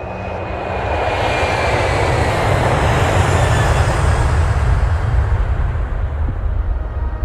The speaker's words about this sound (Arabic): في الحقبة هذه من القضية، كريستيان لونغو اقبل وروح في الطيارة